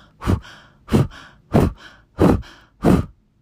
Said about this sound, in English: Just like you're blowing out a candle. When you're ready, you can go ahead and begin just a moment of that blow breath, taking it slow if you need to